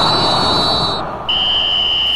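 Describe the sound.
Referee's whistle ending the first half of a World Cup match between Australia and Turkey: two long, shrill blasts over a loud, steady crowd roar, the second slightly lower in pitch and held to the end.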